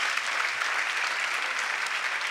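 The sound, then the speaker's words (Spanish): An audience applauds the Lord during a Spanish-language church service. Many hands clap in a dense, even roar that stays constant throughout. “Eso es, dale el aplauso al Señor.”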